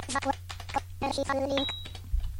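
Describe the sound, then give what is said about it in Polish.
The F6 key is pressed on a computer keyboard, giving a few short, sharp clicks mixed in with a talking voice. “Naciskam raz F6. Tutaj mamy adres. Naciskam jeszcze raz F6.”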